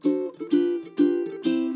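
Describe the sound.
Ukulele chords strummed in a steady rhythm: a few bright, ringing strums that each sustain before the next, with lighter strokes in between. The instrument plays alone, with no talking.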